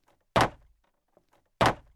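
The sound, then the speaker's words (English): Wooden window shutters bang shut with two loud, heavy thuds about a second apart, each trailing off in a brief rattle. “Anyhow, we'll close the shutters.”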